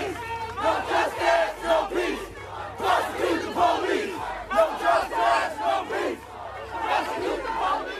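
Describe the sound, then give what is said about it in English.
A protest crowd chants loudly in the streets of Minneapolis, marching against police, with many voices shouting a repeated slogan in steady rhythmic bursts throughout. “Protesters filled the streets of Minneapolis, marching for several hours, chanting, "No justice, no peace, prosecute the police."”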